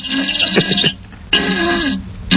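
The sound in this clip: A recorded fart from a novelty sound-effects track. It gives two long, loud, buzzy, sputtering blasts with a short lull between them, and a brief burst starts right at the end.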